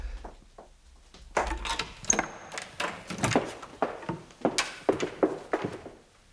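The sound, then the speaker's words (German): A door is torn open with a sudden wooden thunk, and a run of quick knocks and thumps follows at an uneven rhythm. “So, du reißt die Tür auf und versteckst dich hinter ihr.”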